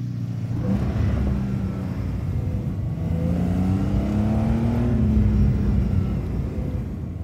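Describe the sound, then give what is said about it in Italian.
A car accelerates hard and drives off. The loud engine roar holds steady, and its pitch climbs through the middle as the revs build, with no voices. “Premo rabbiosamente sull'acceleratore e parto, deciso a raggiungere al più presto la mia nuova realtà.”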